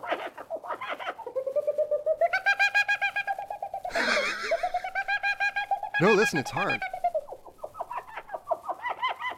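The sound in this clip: A man imitates bird calls with whistled warbles, trills and cooing notes that swoop up and down in pitch in quick, rhythmic bursts. A few spoken words briefly break into the sequence.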